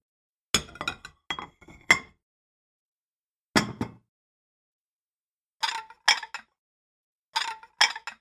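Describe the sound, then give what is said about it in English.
Dishes being set down on a dining table: bright glassy clinks and clatters arrive in short clusters of a few knocks each, separated by silent gaps. “Each piece moves to its designated place, each dish placed perfectly on a table mat.”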